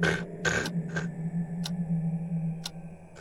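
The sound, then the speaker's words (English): A bag of dry cat food is shaken, giving a few short, crisp rattling bursts, quick at first and then sparser, over a faint steady hum. “a bag of dry cat food. And I start shaking it.”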